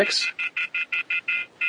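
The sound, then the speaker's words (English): Rapid electronic phone-line tone, a busy or disconnected signal: a longer opening burst followed by a string of short, evenly spaced beeps at a steady high pitch, heard alone. “And if you call, I guarantee you will not hear that disconnected signal. Busy signal? Was it busy or disconnected? Not really sure. Sounded like disconnected to me.”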